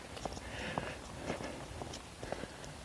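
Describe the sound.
Footsteps of a brisk walk on a chilly morning, in a steady, quick rhythm about every half second. The soft, light steps sit over a constant background hiss.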